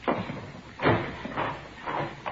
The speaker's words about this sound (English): Here, I'll get the door.